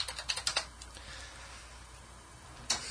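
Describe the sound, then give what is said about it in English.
Computer keyboard typing for a web search, a quick burst of about six crisp keystrokes, then a quiet pause before one more key press. “Open up a new tab and do me a search and just type in Thundercats, and let's see if it exists.”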